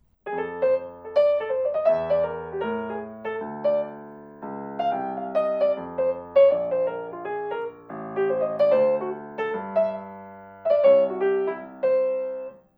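Jazz improvisation following the rhythm of a bebop tune, with quick, syncopated melodic runs over chords in a steady flow of phrases, moderately loud and played alone with no talking.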